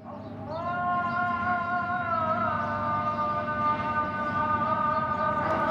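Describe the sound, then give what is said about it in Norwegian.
A mosque call to prayer rings out in Istanbul as one long chanted voice holds sustained tones with gentle shifts in pitch over a low background hum. “En moské kaller inn til bønn i Istanbul.”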